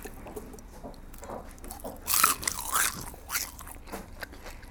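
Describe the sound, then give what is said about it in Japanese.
Crisp crunching as teeth bite into a deep-fried shrimp head, a few loud brittle crunches clustered in the middle with a softer crackle after, over quiet background chewing. “エビのね、これ頭もカリッと揚げてくれてるんですよ。”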